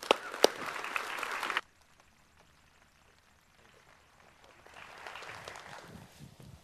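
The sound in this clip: Applause at a church worship service welcoming a guest speaker. The clapping lasts a second and a half and cuts off abruptly, a near-silent stretch follows, and softer rustling sound gradually returns.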